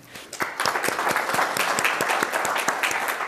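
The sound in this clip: An audience at a university lecture applauds to welcome a professor. The clapping swells quickly after a quiet start into a steady wash, with many distinct sharp claps standing out.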